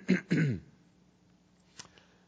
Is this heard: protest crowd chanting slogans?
no